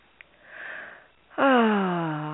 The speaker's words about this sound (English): So you breathe in that air, breathe in that life force of love and light. Have it coming to you right now.